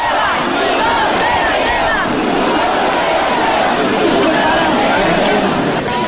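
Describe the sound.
Crowd at the Cascamorras festival in Guadix: a loud, continuous babble of many voices with shouts mixed in, dense and unbroken throughout.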